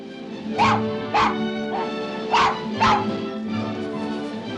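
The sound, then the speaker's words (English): A dog whimpers in a continuous high, tonal whine, broken by several short, sharp barks and yips at an uneven rhythm, the last one fainter. “The dog runs across a pile of rubble and hops onto the shepherd's legs.”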